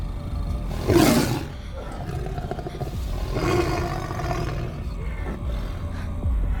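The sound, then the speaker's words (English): Deep, rumbling roars from a caged tiger rise in two loud surges, with a steady low rumble and scuffling noise running underneath. “Each cage contains a tiger.”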